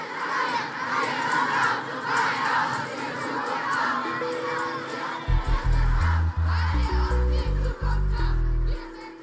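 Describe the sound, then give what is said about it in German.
Crowd of about 25,000 young climate protesters in Berlin at the Brandenburg Gate in March 2019, shouting and chanting in loud rhythmic bursts; deep booming drum beats join partway through and continue under the chanting. “Im März 2019 demonstrierten rund 25.000 junge Menschen in Berlin vor dem Brandenburger Tor gegen die zu zögerliche globale Klimapolitik. Wir sind hier, wir sind laut, skandierten sie, weil ihr uns die Zukunft raubt.”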